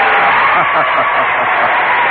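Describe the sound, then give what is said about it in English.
Audience cheering at a live show, a dense, steady roar of crowd voices that stays loud throughout, with no single voice standing out. “So would you please give a cheer to all those who are sad about every damn thing in the world?”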